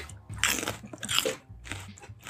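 Biting and chewing into a tomato gives a few moist, crunchy bursts followed by wet, squishy chewing, fairly loud with no talking.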